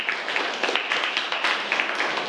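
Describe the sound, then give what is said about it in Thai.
Students in a classroom applaud a classmate: many hands clap in a dense, steady patter that keeps an even loudness throughout. “ปรบมือให้กับเพื่อนด้วยครับ”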